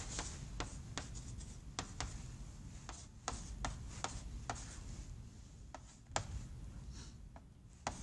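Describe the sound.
Chalk or marker writing an equation on a board during a lecture on torque: faint, intermittent scratchy strokes and small taps in an irregular rhythm, with no talk.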